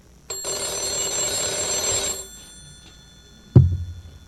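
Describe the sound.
A telephone bell rings in one loud, bright, trilling burst of about two seconds and then stops, followed shortly by a single low thud.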